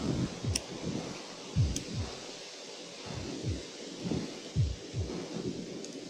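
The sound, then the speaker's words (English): Outdoor wind blows into the microphone, making irregular low, thumping buffets that come in uneven gusts over a faint hiss, with no voices. “That wind pick up to you?”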